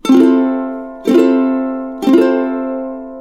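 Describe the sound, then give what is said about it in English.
An F chord and a C chord sound together as one rich polychord, struck three times at roughly one-second intervals, each strike ringing out and decaying before the next. “What if I were to play a C chord at the very same time? It would sound like this.”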